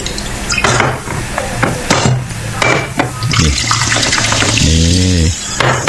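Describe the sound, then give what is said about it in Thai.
Liquor poured into a glass during a drinking toast: a steady splashing, gurgling stream with a few knocks and clinks scattered through it. “เติมเหล้าหน่อย”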